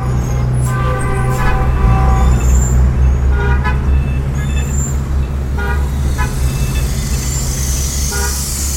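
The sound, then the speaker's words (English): Dense street traffic in modern Beijing forms a constant loud roar of engines and low rumble, with scattered car horn toots and beeps rising above it throughout. “Lao Wong gets on his bicycle and rides out of his beloved Hutong into the wall of sound known as modern Beijing.”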